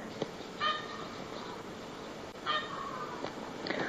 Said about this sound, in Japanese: 今何かラッパみたいな変なのが聞こえておりますけど、これは実はクジャクの声なんですね。